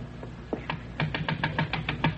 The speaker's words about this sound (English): I better go up and knock on the door.